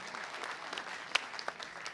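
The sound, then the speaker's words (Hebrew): Applause for an orchestra at a quiz competition event, a fairly faint, scattered clapping in which a few sharper individual claps stand out above the soft patter. “ומחיאות כפיים לתזמורת של דני אבידני.”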